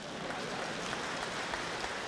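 Audience applause at a comedy stage performance in a theater: a faint, dense, continuous patter of many hands clapping without a break throughout.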